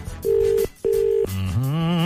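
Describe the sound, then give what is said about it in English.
Ringback tone on an outgoing telephone call: two steady electronic buzzes in a double-ring pattern separated by a short gap, then a wavering, harmonic-rich tone that rises slightly. “It's still ringing.”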